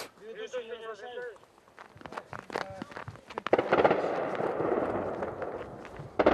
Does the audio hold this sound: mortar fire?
yes